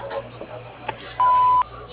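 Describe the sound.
An answering machine tone sounds before a message is left: one steady, mid-pitched electronic beep lasting under half a second over a faint background hiss.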